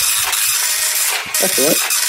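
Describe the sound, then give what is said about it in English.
A slow dot matrix printer prints with a steady, harsh mechanical buzz and ratcheting chatter that runs throughout, and a voice is briefly heard. “That's quite a slow printer as well, I'm afraid. It's like one of those dot matrix ones, and we can't afford anything more modern than that.”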